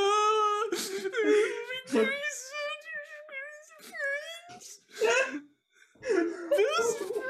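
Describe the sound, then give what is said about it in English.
A voice imitates a woman wailing: wavering, high, moaning cries come in several drawn-out bursts separated by short pauses. “You just hear her wailing.”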